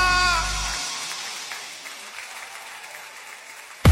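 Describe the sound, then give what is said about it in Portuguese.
Applause from a crowd at a music party with a large speaker wall: dense, steady clapping that stays fairly loud and eases a little. It opens with a brief burst of bass-heavy music and ends on a sharp, loud hit. “palmas fortes pro que ele merece”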